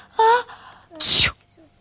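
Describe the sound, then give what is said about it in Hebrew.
A sneeze performed by a voice, with a short drawn-in voiced 'ah' followed after a pause by a sharp, bright hissing burst of breath, the two parts clearly separated against near silence. “זבוב עמד לי על האף. התעטשתי,”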